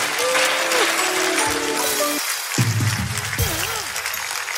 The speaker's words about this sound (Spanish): Un aplauso para ellos dos.